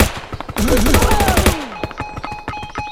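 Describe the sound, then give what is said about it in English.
Machine gun fire in a video game, a fast rattle of sharp shots that thickens into a dense, loud burst mid-clip, with tonal game effects running through it and scattered shots afterward. “Ooh, I'm getting shot by a machine gun.”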